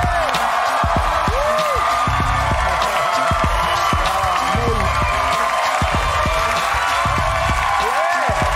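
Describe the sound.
Studio audience cheering and applauding as actress Diane Guerrero is welcomed onto a talk show: a loud, unbroken roar of clapping, whoops and whistles that stays at a steady level throughout.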